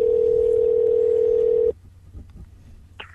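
Telephone dial tone heard while calling someone back: a loud, steady, pure hum holds for under two seconds, then cuts off abruptly, leaving faint line noise and a short high blip near the end.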